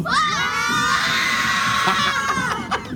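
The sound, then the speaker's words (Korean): Elementary schoolchildren on a studio tour shout together in a loud, sustained, high-pitched roar of cheering that fills the whole stretch and dips briefly near the end. “우리 어린 학생들의 예. 기운 여러분 한번 받아보시겠습니까? 진짜 오리지널 생기운 한번 받아보시죠. 네. 마이크 열어주시면 얘들아 소리 질러!”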